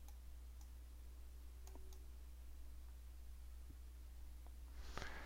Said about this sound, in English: we'll go ahead and click on that link now